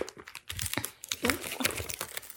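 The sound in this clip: A package of craft supplies being opened, with busy crinkling and rustling of packaging material in irregular bursts of varying loudness.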